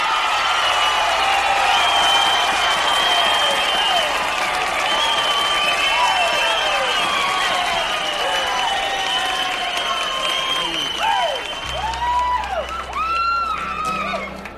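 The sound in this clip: Audience applause and cheering welcoming country singer Willie Nelson onto the stage: loud, sustained clapping mixed with shrill rising and falling whistles that grow more frequent toward the end, with crowd voices underneath.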